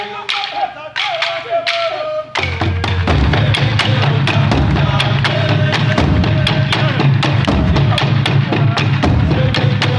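Traditional Burundian drumming with sticks, a group of drums beaten with many sharp, cracking strikes over deep thumps. A brief quieter, sparser opening gives way to a loud, driving, steady rhythm that continues to the end.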